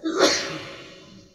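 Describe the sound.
A single sneeze bursts out sharply, then trails off into a breathy, fading tail, with no talk around it.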